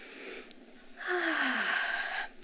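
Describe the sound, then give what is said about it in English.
A deep breath drawn in: a long, airy inhale of about a second and a half, breathy and steady, after a brief softer breath. “I'm going to make you take a deep breath with me.”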